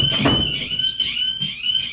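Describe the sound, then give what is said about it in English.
A studio alarm goes off in an electronic, steady, high-pitched tone that sounds without a break for the whole two seconds, with a low rumble beneath it. “You mentioned something bad about Rapoli, then all of a sudden all our alarms go off. Do we have an intruder? I have no idea what that is. Intruder alert.”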